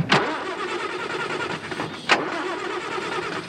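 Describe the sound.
A car engine with a faulty motor is started up, giving a steady rumbling run with two sharp, loud bursts, one at the start and one about two seconds later, and no talk over it.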